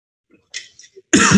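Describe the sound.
A speaker coughs sharply to clear something caught in the throat. One loud, abrupt burst follows a few brief, faint noises.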